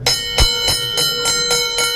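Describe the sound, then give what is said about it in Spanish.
A bell rung by cancer patients at a children's hospital, a newly installed bell for oncology patients. Bright metallic strikes repeat at a steady, quick pace, with overtones ringing on between them. “Es otra de las campanas que han instalado en el Hospital Materno Infantil. Nueva campana de vida para los pacientes oncológicos”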